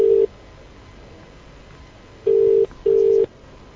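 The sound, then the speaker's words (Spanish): A telephone call is placed and the ringing tone of the line sounds as steady, mid-pitched electronic beeps. One short beep opens, then after a long quiet gap two longer beeps follow close together. “Pues ahí estamos, llamando a Harry Potter.”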